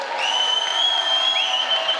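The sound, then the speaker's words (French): Crowd noise at a professional wrestling show: a dense, steady wash of applause and cheering with a few sustained high whistle-like tones running through it, loud throughout. “Tenez-vous prêts. Et bienvenue à ce grand show de catch!”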